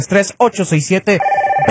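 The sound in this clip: A telephone rings with an incoming call to a Spanish-language sports call-in radio show. A steady, even ringing tone follows a stretch of talk and sounds clearly alone near the end.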